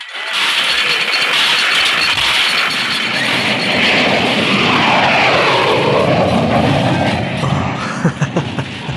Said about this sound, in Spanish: Parece una saeta en el cielo abierto. Un avión de combate perfecto, jefe. Y viene otro más.